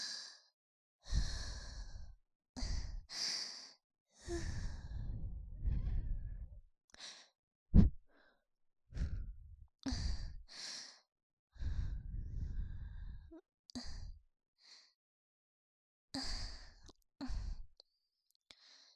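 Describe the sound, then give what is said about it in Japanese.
Gentle puffs of breath blown softly, repeated in many short, airy bursts separated by brief pauses, with an occasional faint click between them. “軽く息を吹きかけただけなのに、そんなに震えちゃって。”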